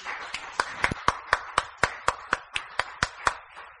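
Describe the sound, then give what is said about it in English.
Clapping for the Lord at a church service: faint, evenly spaced claps in a steady rhythm, with no cheering audible. “Praise the Lord. Give the Lord a cheer.”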